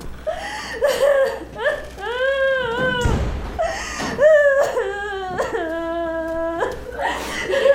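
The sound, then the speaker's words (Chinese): An adult woman, a young mother, cries and sobs in several wavering, wailing cries, the pitch sliding and trembling, with breathy gasps and whimpers between them. “别哭了”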